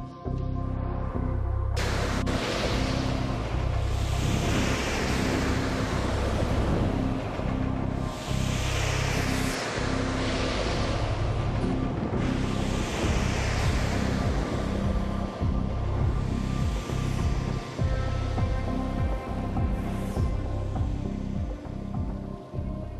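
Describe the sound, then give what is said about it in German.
A BMW ActiveHybrid X6, an all-wheel-drive hybrid with a V8 twin-turbo and two electric motors, drives with a loud, continuous roar. Broad rushing noise rises sharply at the start and stays dense throughout, with slowly sweeping tones and no talk. “Meine Damen und Herren, hier kommt nun der schnellste Allrad-Hybrid der Welt, der BMW Active Hybrid X6.”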